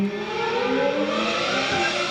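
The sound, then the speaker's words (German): A 1995 Ferrari Formula 1 racing car engine howls at high revs in a loud, continuous, harmonic-rich whine that holds a fairly steady pitch for about two seconds. “Augen schließen und sich wegträumen in einen 1995er Ferrari der Formel 1. Der hört sich genau so an.”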